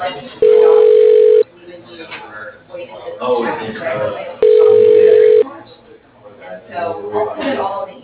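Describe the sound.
Ringback tone from an automated phone system trying an extension: two steady, buzzing tone bursts of about a second each, separated by a few seconds of talking voices that continue after the second ring.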